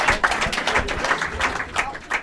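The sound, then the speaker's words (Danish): Studio audience applause welcomes a pet-stylist guest onto a talk show, a dense, steady patter of clapping that continues evenly throughout. “Jeg må her give en kæmpe stor hånd til en dyrestylist. Giv en kæmpe stor hånd.”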